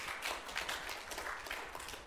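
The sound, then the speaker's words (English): A church audience applauding: faint, continuous clapping with a soft, even texture and little change in level. “You should clap for that.”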